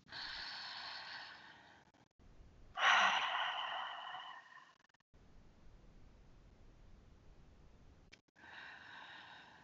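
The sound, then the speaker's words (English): Slow breaths exhaled through the mouth, a few long, soft, airy exhales separated by short pauses, one louder and fuller than the rest, with no talk. “Exhaling from the mouth and just letting it all out.”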